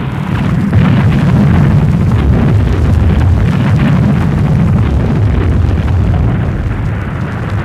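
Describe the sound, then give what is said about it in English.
Artillery barrage in an archive wartime recording from the El Alamein battle: a continuous, loud, dense roar of overlapping booms and low rumbling with no pauses, heavy and noisy from start to finish. “as you can hear from this archive recording, the violence of the artillery barrage was devastating.”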